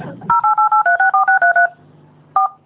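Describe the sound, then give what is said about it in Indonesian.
Telephone keypad tones as a number is dialed: a rapid series of short, evenly spaced DTMF beeps at mid pitch, a pause, then one final tone. “Sekarang telepon Tante Mama. Tante Mamanya Icu yang sering telepon sama Icu.”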